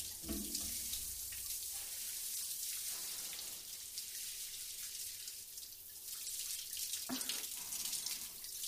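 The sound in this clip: Water running from a tap to rinse off, a faint, steady hiss of flowing water with slight shifts in the splash along the way.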